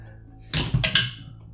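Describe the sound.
A latch being tried in a video game: a brief mechanical rattle of a couple of sharp clunks in quick succession, heard alone and fairly quiet.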